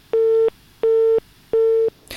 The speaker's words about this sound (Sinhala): දුරකථනය විසන්දි වෙලා තියෙනවා.